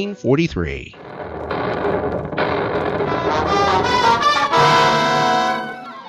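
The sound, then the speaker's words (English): A radio-drama effect of explosions sinking a freighter off the coast of Africa in 1943. Loud, roaring blasts build into a sustained, heavy rumble. “The freighter Star of Cape Town was sunk today off the coast of Africa by a series of mysterious explosions.”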